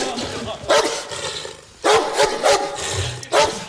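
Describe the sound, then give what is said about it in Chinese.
A dog barks several sharp times at irregular intervals over a steady background of noise. “这是上边批给我的狗啊，你们可得关照点，出了问题拿你们试问。”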